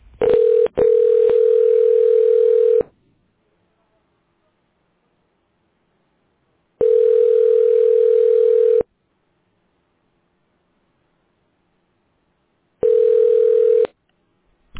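Telephone line tones play while a call is transferred: three long, steady, mid-pitched tones separated by silences, the last one cut short, in a ringback-like pattern.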